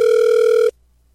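A WhatsApp call ringing as a single steady electronic tone, loud and sustained for just under a second before cutting off abruptly into near silence.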